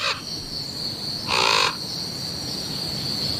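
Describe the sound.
Harsh, raspy cawing from a crow, a couple of loud calls, one clipped at the very start and a fuller one a moment later, over a steady high-pitched hum.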